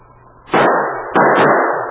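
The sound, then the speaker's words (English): Two loud gunshots fired in snowy wilderness, each a sharp blast trailing into a long, rumbling decay, the second following about half a second after the first. “The gunshots blasted the silence of the wilderness.”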